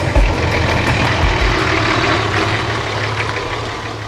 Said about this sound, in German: Er springt in den Lieferwagen. Die fahren zu uns.